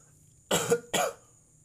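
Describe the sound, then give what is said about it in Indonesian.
A person coughs twice in quick succession, two short, rough bursts, fairly loud, with no speech around them. “batuk saya”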